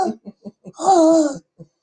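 A female dog with allergies coughing: a few short, rough coughs, then a longer, harsh, wheezing honk, and one more short cough at the end.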